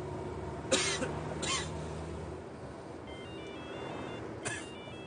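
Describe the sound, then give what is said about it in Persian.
A person coughs three times in harsh, spaced bursts. A short run of high, stepped electronic beeps, like phone keypad tones, sounds between the second and third coughs. “داداش بگیر جلوی دماغ و دهن تو دیگه آلوده کردی اینجا رو ما رو الان سرما میدی”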